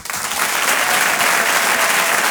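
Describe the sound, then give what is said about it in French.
Comedy club audience applauding as a comedian is called to the stage: a short, loud, dense burst of clapping that stays even from start to finish. “Je vous demande un tonnerre d'applaudissements, s'il vous plaît, pour Walidia.”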